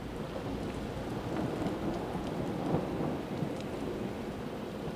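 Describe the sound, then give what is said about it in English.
A thunderstorm with rain, recorded as an environmental soundscape: dense, continuous rain hiss with low rolling thunder rumbling beneath it, holding at a steady, moderate level with no voices. “the ultimate thunderstorm, perhaps, Irv Ty Bell's Ultimate Thunderstorm from his Environments series.”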